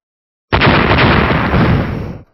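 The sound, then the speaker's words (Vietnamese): Loud explosions boom as heavy water crashes down onto a glowing red barrier, merging into one continuous roaring rumble that starts abruptly and holds steady before cutting off. “Những tiếng nổ lớn vang lên liên tiếp, quang mạc màu đỏ chấn động mãnh liệt”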